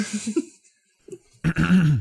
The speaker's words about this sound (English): There's an audible clearing of a throat.